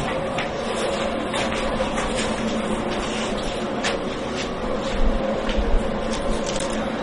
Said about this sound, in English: And then they're ground here. These are the grinding machines.